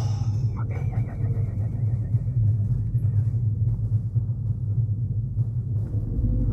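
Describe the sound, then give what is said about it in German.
Car engine rumbling as a vehicle pulls out of a parking space, a steady low, loud drone that runs unbroken throughout without clear change. “da fährt einer raus.”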